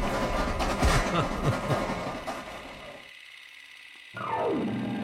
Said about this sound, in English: You can stop that locomotive with your face.